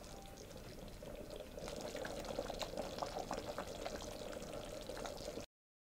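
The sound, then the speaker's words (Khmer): Coconut cream pours into a pot of sweet taro dessert. A steady, even liquid pour runs for about five seconds at moderate loudness and then stops abruptly. No one speaks. “ឥឡូវខ្ញុំដាក់ខ្ទិះដើមចូលបន្តិចទៀត”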